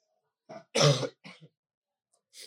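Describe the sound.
A person clears their throat: a few rough, gravelly bursts, the loudest and longest near the start, a shorter one right after, then one last brief rasp following a pause.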